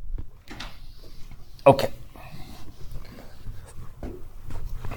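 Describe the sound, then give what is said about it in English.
Dry scratchy strokes of erasing and rewriting on a board come in short uneven bursts, with one sharper knock near the middle, while a person talks. “That's too high. I need more room. Sorry. Let me erase that and we'll lower it.”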